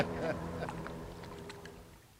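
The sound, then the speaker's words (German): A motorboat engine runs with a steady, low harmonic hum, fairly faint, and a few brief higher splashing or knocking noises sit on top. “jetzt geht das Motorboot auch schon wieder.”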